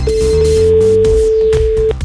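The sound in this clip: A telephone rings for an incoming call: one loud, steady, mid-pitched electronic tone held for nearly two seconds over a low background.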